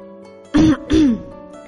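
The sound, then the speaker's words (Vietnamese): A light cough from a man, two short throaty bursts in quick succession over a steady, quiet background tone. “ho nhẹ một cái”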